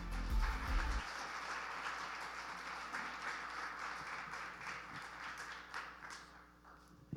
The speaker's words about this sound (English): So if you would, put your hands together and welcome Brother Bobby Duncan.